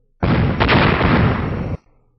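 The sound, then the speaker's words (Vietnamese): Loud explosion sound effect: one broad, roaring blast that starts abruptly, holds steady for about a second and a half, then cuts off sharply. No voices are heard. “Thanh âm nổ vang lớn, hoàng mang chói mắt chợt hiện ở phía dưới”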